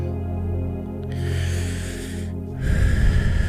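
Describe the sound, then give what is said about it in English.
Deep, slow breathing during a guided relaxation exercise, with a few long airy inhale and exhale phases, loud and breathy over a low rumble, with no talk. “exhale, inhale, exhale.”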